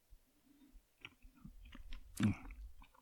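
Someone chews a crunchy Oreo-type chocolate cookie wafer without the cream filling. It makes a series of faint, irregular crunches and mouth sounds, with one louder crunch near the end.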